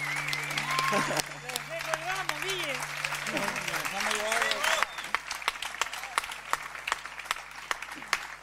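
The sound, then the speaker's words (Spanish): Applause for wind musicians at a live performance: scattered claps under a talking voice, with held musical tones early on and sparser, sharper claps in the second half. “Fuerte ese aplauso para los pibes, los viento acá, por favor.”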